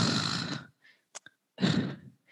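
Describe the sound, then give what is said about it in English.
Deep, noisy breaths taken during a yoga warrior pose: two long airy breaths separated by a pause, with a couple of short faint clicks in between and no talk. “it's actually kind of therapeutic to do that breathing. I just realized that as I was doing it.”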